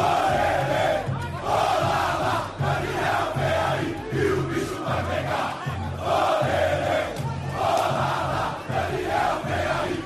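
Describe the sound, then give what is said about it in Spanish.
Thousands of football fans chant to welcome Dani Alves at São Paulo airport, with flares lit among the crowd. A loud, dense wall of voices chants continuously in rhythmic swells with only brief dips. “Y el otro sonido del día es la llegada de Dani Alves al aeropuerto de Sao Paulo. Tremendo, con miles y miles de personas esperando a la llegada del nuevo lateral del conjunto brasileño, con bengalas incluidas. Suena así el recibimiento.”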